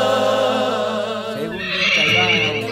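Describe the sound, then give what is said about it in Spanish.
A mare neighs in one long, loud whinny, a quavering harmonic call that breaks midway into a higher, shriller squeal. “esa yegua. Viene con ganado, ¿eh?”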